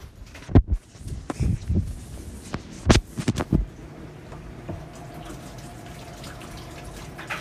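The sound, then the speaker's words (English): Hands being washed under a running tap, with a few clunks and splashes at first, then a steady, quiet stream of water. “And then I go wash my hands.”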